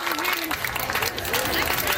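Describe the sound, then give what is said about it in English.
Elementary schoolchildren rehearsing cheers for Canada's team at a tournament, a dense, lively mix of clapping and shouting young voices, loud and continuous with brief rises. “the students are rehearsing their cheers, with Canada guaranteed to play 3 games and hoping to advance to the elimination rounds for the first time.”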